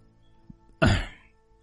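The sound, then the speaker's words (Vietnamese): A man clears his throat at a gathering: one short, rough burst that starts sharply and fades within about half a second, heard alone with no talk. “Đợi cho mọi người chú ý hết vào mình, ông ấy mới hắng giọng nói tiếp.”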